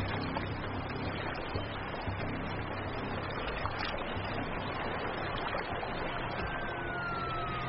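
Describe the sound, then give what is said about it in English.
Siren of a sheriff's patrol car in the Texas desert, a faint wailing tone rising out of steady, broad rushing noise near the end. “That's the sound of a sheriff's patrol car, which means my way out of here.”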